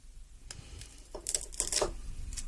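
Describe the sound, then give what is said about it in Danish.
Scissors snip through something, giving a few faint, sharp clicks spread across a quiet, low background. “Nu klipper jeg den.”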